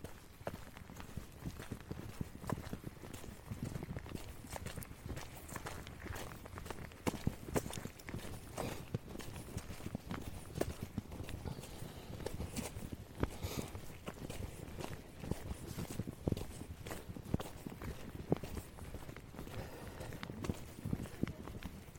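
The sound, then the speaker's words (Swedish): Footsteps of someone walking outdoors to catch up with two old women: many quick, steady steps in an even rhythm, continuous throughout with no talk. “Du får gå med så får du föreställa dig hur jag går i kapp.”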